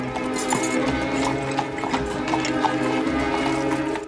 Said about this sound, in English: The replacement cab trots off.